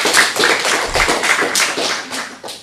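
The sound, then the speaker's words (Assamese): Children clap their hands together in a brisk run of many sharp, fairly loud claps that keep going with small gaps, with almost no talk. “বাৰু সকলোৱে হাত চাপৰি বজাই দিয়া।”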